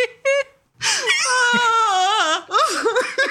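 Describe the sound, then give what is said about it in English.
Wailing, lamenting cries from a human voice: a short cry, then a long, loud, wavering wail with sobbing pitch swings, followed by a few more undulating cries. “Yeah, that is the wailing, the lamentations. That's what I want to hear.”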